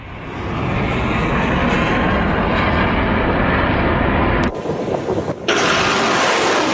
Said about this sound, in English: The sounds of missiles being fired in the port city of Mocha, where the Iranian-backed Houthis have just taken control.